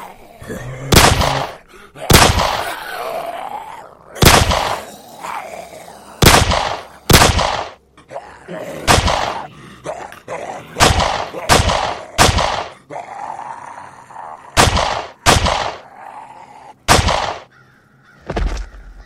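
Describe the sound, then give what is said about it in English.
Video game gunfire: many sharp, loud shots at irregular spacing, each a hard crack with a short tail, separated by quieter background noise. “Damn, that was loud. My aim is really slipping. 12 shots, 5 kills?”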